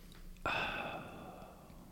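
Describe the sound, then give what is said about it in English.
A single deep breath with a sudden, loud onset that fades slowly over about a second and a half, heard alone without talk. “You took a deep breath. You were thinking.”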